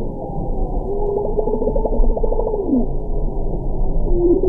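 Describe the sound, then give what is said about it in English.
Bowhead whales calling to each other while migrating past Barrow, Alaska, in springtime: low, burbling tonal calls, with a rapid pulsed series and a later sweeping moan over steady underwater rumble. “let's listen to bowhead whales. Here they are migrating past Barrow, Alaska, springtime. Complex sounds are communicating with each other through a process called countercalling.”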